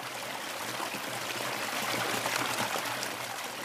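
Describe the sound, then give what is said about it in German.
Water trickles steadily from a fountain at the edge of a mountain village, a continuous hissing splash that swells slightly in the middle, with no voices. “Dann frage ich diesen Brunnen am Rande eines Bergdorfs. Auch sein Wasser wird demnächst durch Passau fließen.”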